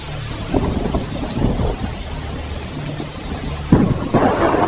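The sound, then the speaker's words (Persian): Heavy rain pours down in a steady, dense hiss, with low rumbling surges rising and falling under it throughout. “باران شدید میباره”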